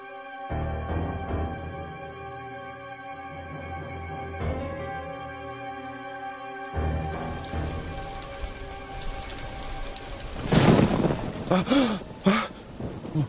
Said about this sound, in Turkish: Bu da ne? Gök gürültüsüymüş. Birden korktum. Yağmur fena bastırdı.